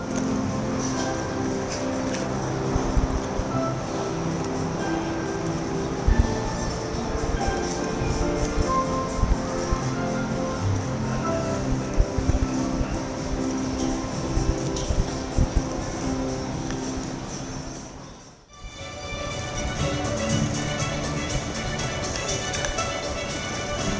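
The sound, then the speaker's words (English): Music playing in Canal City shopping centre in Fukuoka, captured while walking through it. The steady, tonal music runs throughout, briefly drops out near the end, then resumes. “Anyway, I loved the music that much that I wanted to record some of it whilst walking around the shopping centre on that first day. So here are two of the best snippets of that audio.”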